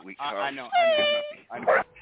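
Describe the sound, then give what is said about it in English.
A dog whimpers in a studio, giving short, high, whiny tones. A longer, steady whine comes in the middle, and brief yelping sounds follow it. “We have our studio dog with us.”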